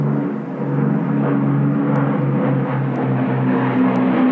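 A World War II Lancaster bomber flying overhead, a loud, continuous, deep droning engine hum that holds steady throughout.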